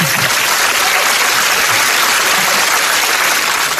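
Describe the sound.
Steady, dense applause from an audience, with many hands clapping in a continuous, even crackle and no break.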